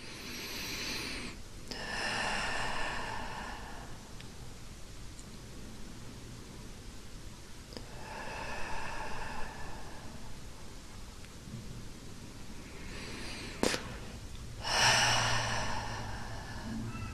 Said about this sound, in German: Und dann atme noch mal ein paar Mal ein und aus.